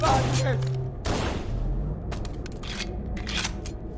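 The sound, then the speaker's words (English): Gunfire from a video game comes in a few sharp, loud bursts of shots spread across the moment. Players' voices can be heard briefly near the start. “He's shooting at us. He's actually shooting you.”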